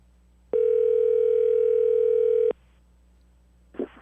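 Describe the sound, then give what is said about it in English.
A telephone ringback tone plays while a call waits for voicemail to pick up: one steady, buzzing ring that holds for about two seconds and then stops, with quiet afterward. “Come on. One more ring. Sweet, sweet voicemail.”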